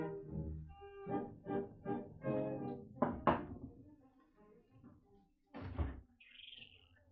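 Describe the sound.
Faint knocking on a door: a quick series of dull raps, then a couple of sharper knocks after a pause, and one more thud later, with voices faintly in the background.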